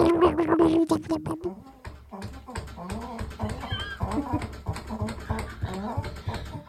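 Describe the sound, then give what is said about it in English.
A dog makes a short, tonal whining sound at the start, followed by scattered clicks and thumps as people talk. “That's a dog. It's definitely a dog.”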